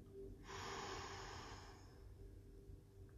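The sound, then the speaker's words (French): A deep inhalation during a hypnosis relaxation session: one long, steady, airy rush of breath lasting about one and a half seconds, fairly loud, with no talking. “Et une dernière fois. Inspirez.”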